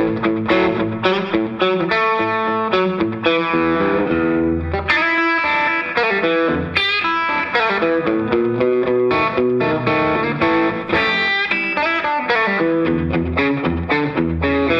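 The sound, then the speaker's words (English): Distorted electric guitar played through a 1980s overdrive pedal stacked with an old RC booster: thick, saturated chords and sustained notes ring continuously and loudly, with no talking. “But when you stack it with the old RC booster, it sort of it takes on another, like a bit more of an animal sound, you know.”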